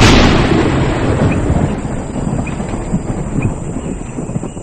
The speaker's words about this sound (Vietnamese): Một chuỗi những tiếng sấm ầm ầm dồn dập vọng đến, rồi một tiếng nổ ầm vang trời.